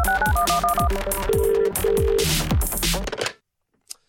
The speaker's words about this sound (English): That was like a ringtone back on the flip phone days.